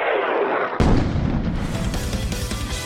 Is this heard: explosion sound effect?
yes

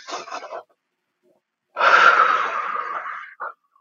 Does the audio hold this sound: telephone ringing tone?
no

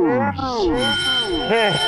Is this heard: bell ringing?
yes

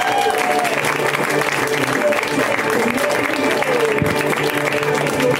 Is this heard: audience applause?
yes

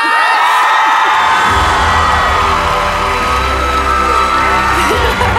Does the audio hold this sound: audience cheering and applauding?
yes

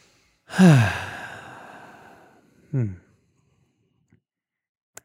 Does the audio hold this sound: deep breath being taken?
yes

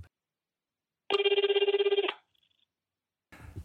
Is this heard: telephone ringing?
yes

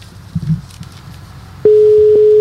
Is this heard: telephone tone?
yes

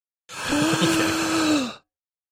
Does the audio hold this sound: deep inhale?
yes

